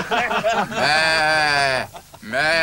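A person imitates a calf's bleat with a loud, drawn-out, wavering vocal cry, a short dip in the middle, then a renewed bleating burst.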